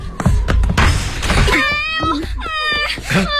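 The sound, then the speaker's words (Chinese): A door being rammed open: a few heavy thuds and crashing noise at the start, followed by a loud wailing, moaning voice through the rest. “师姐，你闪开，我把门撞开。”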